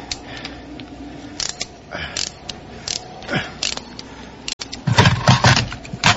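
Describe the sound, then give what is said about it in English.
A metal hose clip snaps during car repair on a freezing morning: a single sharp crack cuts through scattered mechanical clicks and creaks of tools, followed by a denser burst of clattering. “Snapped a hose clip.”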